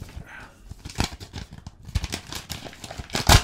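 Wrapped card pack being torn open, a busy run of crinkling, ripping wrapper noise and scattered rustles that grows louder toward the end.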